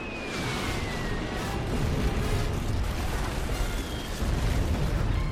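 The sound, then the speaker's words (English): Bombs dropped from aircraft explode in a film scene, producing a continuous loud, rumbling roar with dense crackling noise and no clearly separate blasts. “Strike leader, dropping bombs. No! They're dropping the bombs.”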